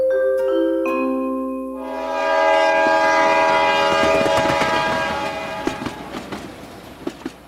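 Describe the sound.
Japanese limited express train departing: a sustained multi-tone horn chord holds for about two seconds, then gives way to a swelling rolling rumble of the train with rattling clatter and a few sharp clacks near the end.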